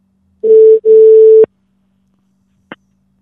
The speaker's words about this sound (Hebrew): בואו נחייג.